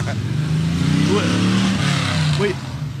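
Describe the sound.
A loud vehicle drives past outside: a rough engine roar with shifting harmonic pitch holds steady for about two and a half seconds, then drops off slightly as it moves away.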